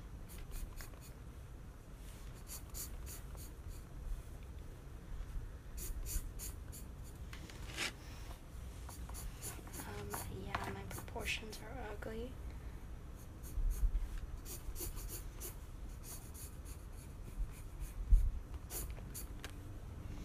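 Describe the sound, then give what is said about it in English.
Soft scratching of drawing on paper while sketching a figure's waist and body proportions. Many faint, irregular strokes and rubs continue throughout with small pauses between bursts. “Just draw the waist. And now I'm gonna draw proportions.”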